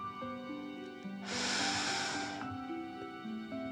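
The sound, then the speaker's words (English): A deep breath in and out, heard as one breathy rush of roughly a second that swells and fades over steady, soft background music. “Again deep breath in and out.”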